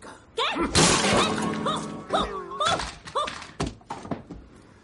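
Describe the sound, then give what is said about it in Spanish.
A guitar is smashed against a wooden beam: a loud crash with splintering breakage, followed by a series of scattered knocks and clatters that gradually thin out. “Dame la guitarra. Se la quita. Deja su rifle y la destroza contra una viga.”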